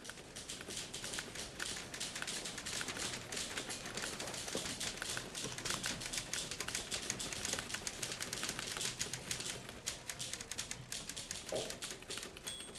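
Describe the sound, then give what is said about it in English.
Typewriter typing in a typing pool: a dense, steady stream of rapid mechanical key clicks that continues at an even loudness for the whole clip, with no talk. “Golda hesitates at the door of the room where Shir Shapiro is typing.”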